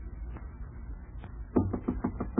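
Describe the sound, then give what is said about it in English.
Someone knocks on a compartment door, a quick run of dull, muffled raps in the second half, low and soft after a stretch of quieter background. “Try the door. What's that knock?”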